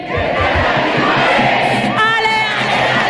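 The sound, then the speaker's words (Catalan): Barça supporters at the Johan Cruyff stadium sing and chant together as a loud, continuous crowd, with massed voices swelling into sustained sung notes. “Alexia Putellas cantant amb l'afició, acomiadant-se del públic del Johan Cruyff”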